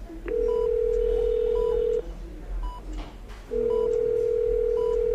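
A telephone places an outgoing call: a steady line tone sounds with short higher beeps, breaks off briefly, then resumes, all without talk.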